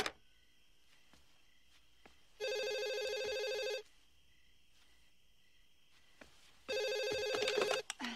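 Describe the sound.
A telephone rings as a caller dials a wrong number again. Two buzzy ring bursts, each lasting over a second, are separated by a few seconds of quiet line hum.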